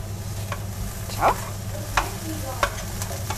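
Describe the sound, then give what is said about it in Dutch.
Salmon pieces frying with Japanese soy sauce are stirred in the pan. A steady low sizzle runs throughout, broken by a few sharp scraping strokes of the utensil. “En dan een beetje roeren.”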